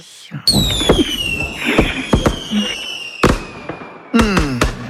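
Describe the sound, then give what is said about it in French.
Fireworks: whistling rockets with high tones slowly falling in pitch, punctuated by several sharp cracking bangs and crackles, with a fresh cluster of loud bursts near the end. “Mais bien sûr, c'est un feu d'artifice, hein.”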